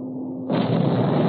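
A torpedo explosion hitting a tanker ship bursts in suddenly and swells into a loud, sustained, rumbling roar that carries on to the end.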